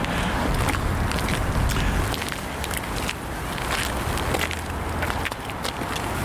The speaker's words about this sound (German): Und wir gehen jetzt hier einmal zur nächsten Ecke da drüben.